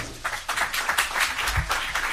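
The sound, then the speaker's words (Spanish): Family and friends in the front rows applaud at a press conference in a Barcelona hotel, a dense, steady patter of many hands clapping at an even, moderate level throughout. “Los aplausos no son de los periodistas, son de familiares y amigos que estaban situadas en las primeras filas de ese salón del Hotel de Barcelona”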